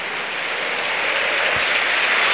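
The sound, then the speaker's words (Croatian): Applause from a football crowd as substituted footballer Ivan Perišić leaves the pitch: a dense, steady wash of clapping that holds throughout and swells slightly toward the end. “Pljesak iza Perišića”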